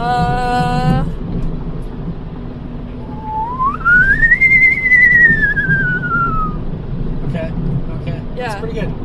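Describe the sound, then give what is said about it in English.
A voice imitating a spaceship noise: a whistled tone that rises and then slowly glides down in pitch over a few seconds, with a short buzzy tone before it and quick chirps after it. “What's your best spaceship noise? Best spaceship noise.”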